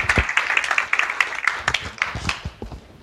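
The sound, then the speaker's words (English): Audience clapping to welcome a speaker, a few seconds of distinct individual claps at a lively pace that thin out and fade toward the end. “Let's give him a warm round of welcome.”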